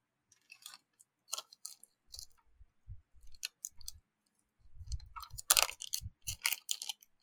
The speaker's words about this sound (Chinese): 你在吃海苔还是什么东西？ 我在吃喉糖。